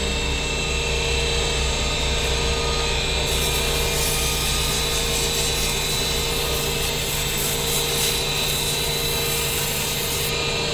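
Sanding of a wooden ballpoint pen blank in a pen workshop, worked from coarse to fine grits: a loud, continuous abrasive rasping that runs steadily throughout with no talking.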